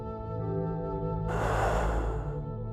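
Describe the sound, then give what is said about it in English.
Deep breathing during a guided meditation: one long, airy rush of breath rises over a bed of sustained, held musical tones and then fades. “Breathe in. Breathe out.”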